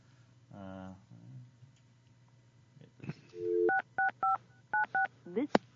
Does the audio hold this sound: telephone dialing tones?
yes